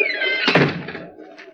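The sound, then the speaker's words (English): A door is shut: a brief falling squeak leads into one dull, heavy thud that fades quickly. “Shut the door behind you.”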